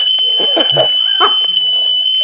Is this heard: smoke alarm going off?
yes

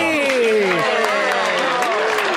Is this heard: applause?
yes

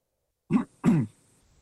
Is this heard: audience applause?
no

